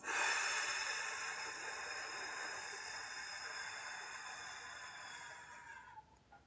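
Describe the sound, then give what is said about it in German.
A slow exhale through pursed lips, as if through a straw, as part of a breathing exercise: a steady, faint airy hiss lasting about six seconds that gradually weakens before stopping. “dann sieben Sekunden durch den Mund wie durch einen Strohhalm ausatmen.”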